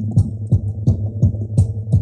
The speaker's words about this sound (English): So what you're hearing is a kind of a pulse on a drum. It's got a bunch of hand drums that are like, you know, congas and bongos and things in very specific places in the far background.